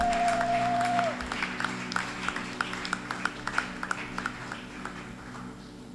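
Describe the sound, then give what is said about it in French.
Rhythmic hand clapping from an audience at a church worship gathering, a steady run of many sharp claps at an even pace over a sustained low hum, after a held tone cuts off early. “Et pendant qu'elle s'avance, qu'est-ce que nous pouvons acclamer pour la gloire du Seigneur?”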